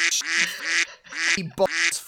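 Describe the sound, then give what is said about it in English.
Rapid series of nasal, buzzy duck quacks from a sound effect, loud and nearly continuous with one brief pause midway, with no talking. “Westhoff get ready for a million quacks”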